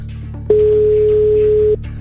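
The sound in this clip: A single steady telephone tone sounds as a radio host calls a listener: one unbroken mid-pitched beep lasting just over a second, starting and stopping abruptly, with no voices.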